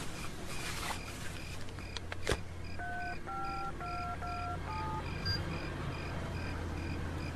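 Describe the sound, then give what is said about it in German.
Touch-tone dialing of a phone call: a quick run of short, high electronic beeps in an even rhythm, faint over a steady low hum. “Erstmal rufen wir Inspektor Cotta an.”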